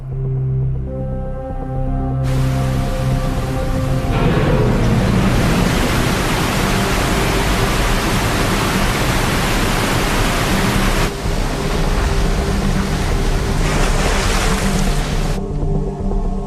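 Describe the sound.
Water rushing through an opened gate of a hydroelectric dam, a loud, dense, continuous roar that swells after a few seconds and holds steady, shifting slightly in texture late on.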